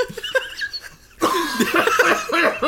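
Coughing fit after breathing in a piece of lettuce while eating fast food. A quiet stretch leads into a burst of harsh, raspy, sputtering coughs with laugh-like voiced catches that continue to the end.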